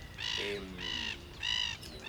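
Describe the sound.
Gull calls at a coastal lagoon in Rocha, Uruguay: a few loud, harsh, repeated cries in an uneven rhythm, each separated by a short pause, with a softer lower call in between.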